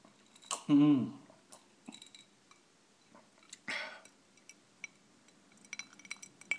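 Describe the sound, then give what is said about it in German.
Ice cubes clinking in a glass: scattered faint, high chinks and ticks with quiet gaps between them, plus a couple of louder brief bursts near the start. “Hört ihr das Eis klimpern?”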